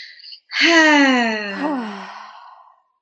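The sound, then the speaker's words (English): A person's deep breath out as a long voiced sigh, slowly falling in pitch and fading away, after a brief softer sound and a short silence. “just take a deep breath, inhale, exhale.”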